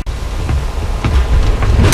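A thunderstorm with rain rages at sea around a ship's deck. A loud, steady roar of rain and wind runs underneath, with low rumbling swells rising and falling throughout.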